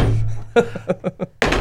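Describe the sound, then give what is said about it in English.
A blunt thunk as an object is thrown against a wooden wall, with a few short knocking hits. Voices can be heard around the impacts. “So if I throw this up against the wall, it should stick, right? I mean, thrown properly, of course.”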